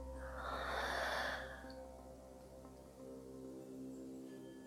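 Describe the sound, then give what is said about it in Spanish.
A deep inhale followed by a slow exhale through the mouth during a guided relaxation exercise. A soft, airy rush of breath rises and then fades over a steady, low tonal drone, with the release quieter than the intake. “Una vez más, inhala profundo. Y por tu boca suelta.”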